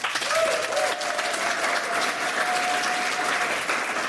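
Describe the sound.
A studio audience applauding at the start of an evening talk show, dense sustained clapping that stays loud and even across the whole stretch.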